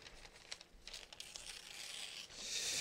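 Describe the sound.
Tearing of a handheld prop: a rough, crackling rip with a few crisp bursts early on, building into a louder, sustained tear toward the end.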